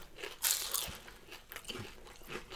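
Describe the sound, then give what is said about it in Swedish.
Crisp crunching and chewing of vegetarian mini spring rolls filled with vegetables: a few faint, brittle crunches, the first loudest, with quieter chewing between them. “så här små mini vårrullar med fyllda med grönsaker. Så några minuter så har man ett snacks. Doppa gärna i min goda Szechuan-sås. De var helt vegetariska. Ja. Åh, krispigt och gott också.”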